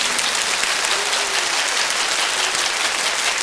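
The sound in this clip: Audience clapping in devotion to Ali Akbar at a religious hey'at gathering, a dense, sustained wash of many hands applauding at a steady loud level throughout, without distinct voices.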